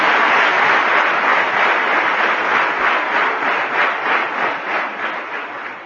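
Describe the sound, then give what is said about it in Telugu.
An audience claps in sustained applause, a dense, even wash of hand claps that holds steady for several seconds before easing slightly at the end. “మీరు కేవలం claps వేస్తే నాకు ఆనందం కాదు, పనులు చేస్తే నాకు ఆనందం. Claps will never make Swamy happy”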